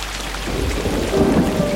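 Steady rain falls with a continuous low rumble of thunder underneath. The dense wash of sound holds at an even, fairly loud level throughout, with no voices.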